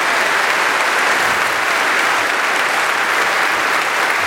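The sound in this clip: A large audience at a town hall forum held in a church gives sustained applause to a welcomed speaker, a dense, uniform roar of clapping at constant loudness.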